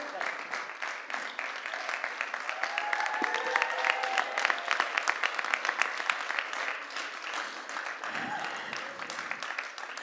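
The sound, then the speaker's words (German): A church audience stands and applauds to welcome a pastor: dense, steady clapping that carries on for about ten seconds, with a few voices mixed in. “hey, lass uns mal aufstehen und sie mit einem großen Applaus hier begrüßen”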